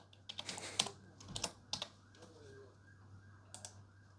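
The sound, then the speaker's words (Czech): Typing on a computer keyboard: quiet, quick clusters of key clicks in short irregular bursts over a low steady hum. “No vidíte, už to píšu.”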